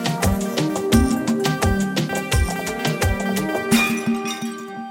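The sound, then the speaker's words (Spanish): A magical sound effect of genies coming out of a bottle: a dense, loud, shimmering cascade of bright chimes and clinking tones over a full musical backing that continues without pause. “estos son los botellazos de salir de la botella.”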